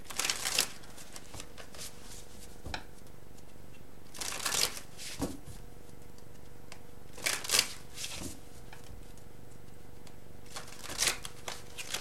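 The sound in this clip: A deck of tarot cards is shuffled in a few separate bursts of crisp riffling rustle, with quieter pauses between them and a faint steady hum underneath. Nobody speaks.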